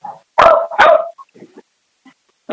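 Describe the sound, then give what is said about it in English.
A dog gives two loud, sharp barks in quick succession, then a few faint, brief softer sounds before another bark begins. “Sorry about the dog.”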